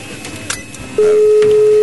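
A telephone call is being placed. A steady, loud line tone comes in midway and holds unchanged to the end, after a few faint clicks and low background noise.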